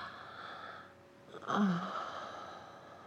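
A single wheezy, gasping breath from someone catching their breath. It is a brief, fairly loud voiced rasp whose pitch falls, set against a quiet hiss with no talk.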